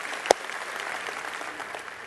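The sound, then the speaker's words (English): Dense applause from a church audience during an Easter service, a continuous patter of many hands with one sharp, louder clap standing out near the start. “Yes, every campus cheering for that.”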